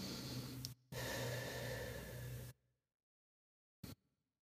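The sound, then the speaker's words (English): Breathing in and out through the nose during a guided stretching session: a long, noisy breath, a brief pause, then a longer steady breath, followed by silence and one short faint puff. “And take a couple more breaths. In and out through the nose. You can even exhale through the mouth if you have a lot of heat in the body.”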